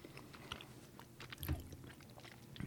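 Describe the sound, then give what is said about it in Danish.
Someone eating and chewing food, with faint moist chewing and soft crunches at an irregular rhythm throughout, and a slightly stronger bite partway through. “det bliver en smaske podcast der. I kan lige så godt bare... Nu er jeg advaret. Vi kommer til at spise igennem hele den her.”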